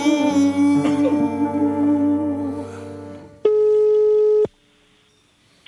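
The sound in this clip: A telephone ringback tone while calling someone's mother: one steady, mid-pitched beep lasts about a second near the end. It follows several seconds of other sustained, layered tones, and silence comes after it.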